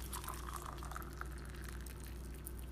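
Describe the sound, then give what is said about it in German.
Hot water poured into a glass, a soft, steady rushing and splashing that stays faint and even throughout. “Und eigentlich sollte man das vielleicht nicht in ein Glas machen bei dem heißen Wasser”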